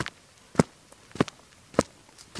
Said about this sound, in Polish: Ile kroków muszą zrobić przechodnie idący na dworzec kolejowy albo z dworca kolejowego? No to ruszamy i liczymy kroki.